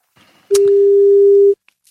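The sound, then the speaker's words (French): Telephone ringing tone on an outgoing call: one loud, steady single-pitched beep about a second long, heard alone with near silence around it. “Alors déjà on a une sonnerie, ça c'est plutôt pas mal.”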